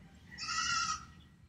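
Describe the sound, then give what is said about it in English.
A single bleat from a young, bottle-fed goat: one wavering, nasal cry of about a second that rises in, holds and fades, fairly faint over a quiet low background hum. “So we may be hearing a little bit of goat noise today.”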